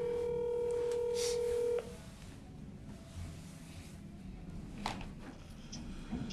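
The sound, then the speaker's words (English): A telephone dialing a call sounds as one steady electronic tone that holds for just under two seconds and then cuts off abruptly, leaving only faint background hiss. “Let's see what our callers think. We're gonna call Jeff Boykin from my team.”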